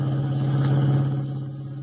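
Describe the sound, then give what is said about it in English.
A car driving in an old radio drama sound effect, a low, steady engine drone with a humming tone that eases slightly toward the end. “Kent and White dashed out, and as we join them now, they are driving the revived but still weak Jim Olsen back to the Daily Planet. Listen.”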